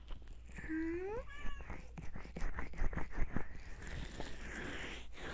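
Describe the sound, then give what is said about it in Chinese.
A cat gives one clear meow that rises in pitch and lasts about half a second. Soft rustling and tapping noises follow at low volume. “哦，是小猫咪，它是不是最想你了？”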